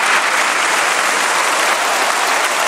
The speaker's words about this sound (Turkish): Magyar'ın çağrısı parlamentoda alkışlarla desteklenirken Cumhurbaşkanı rahatsız bir gülümsemeyle karşılık verdi.